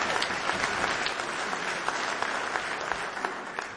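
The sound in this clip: Audience applauding at a live band show: dense, steady clapping at an even level from start to finish, with no talking.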